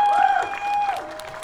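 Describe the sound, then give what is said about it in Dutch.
Crowd applause at a climate protest blocking the A12 motorway, a steady, dense patter lasting about a second and a half, with a high sustained tone running through it. “Dus toch nog heel even een applaus.”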